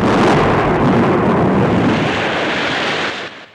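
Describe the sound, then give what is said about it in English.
Thunder rolls during a lightning storm over a clifftop by the sea, a loud, continuous deep rumble that holds steady for about three seconds before quickly fading away. “Outside, lightning forks through dark storm clouds.”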